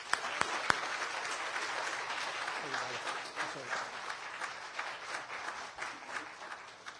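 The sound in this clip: A church audience at a Wesleyan service breaks into applause to welcome a pastor, opening with a few sharp claps that swell into steady, dense clapping that continues to the end, with a voice briefly heard among it.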